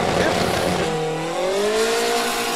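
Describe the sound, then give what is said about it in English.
Drag racing car running hard through its gears, a loud, continuous engine roar with bright harmonic tones that climb in pitch across the second half. “You can hear it popping as he goes through the gears.”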